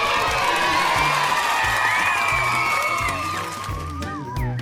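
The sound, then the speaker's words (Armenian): Cheering and applause rise from an audience at a children's stage performance, with high excited voices whooping and shouting over steady clapping, loud and continuous throughout. “Լսվում են ծափահարություններ և բեմին հայտնվում է Թիթին”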